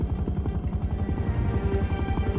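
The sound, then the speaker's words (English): A helicopter overhead: the rapid, regular thud of its rotor blades over a low rumble, loud and continuous throughout. “Chopper. That's the chopper.”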